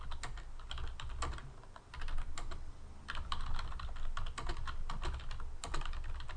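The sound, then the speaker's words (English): Someone types a message on a computer keyboard in quick, irregular bursts of keystrokes. The clatter is fairly quiet, with short pauses between runs, and no talk is heard. “Just sending a quick message to Nick.”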